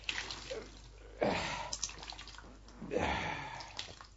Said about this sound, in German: Und jetzt ist der Lumpen so voll Wasser, dass er kein bisschen Wasser mehr schlucken kann. Ja, ist ja schön. Gib her, dann wind ich ihn aus.